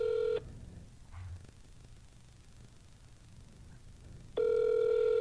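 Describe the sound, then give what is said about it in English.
A telephone call being placed: a steady electronic line tone sounds briefly, then faint hiss and near silence, then the tone returns and holds to the end. “you're actually calling someone”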